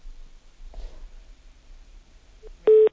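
Electronic phone-line tone as a call connects on air: a faint short blip, then a loud, steady beep at the very end after a low, quiet hum.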